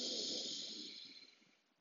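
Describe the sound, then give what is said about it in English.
A deep breath drawn in during a guided meditation ritual: a soft, airy inhale that starts fairly full and gradually fades away over about two seconds, quiet and alone. “Take a deep breath in.”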